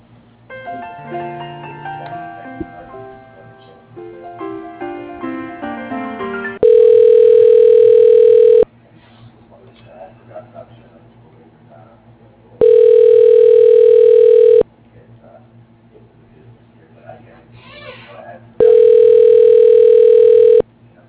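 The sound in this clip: Ringback tone on a phone line while a call to a drywall company office is transferred. A short melodic passage comes first, then three loud, steady, long tones of about two seconds each, separated by quieter pauses.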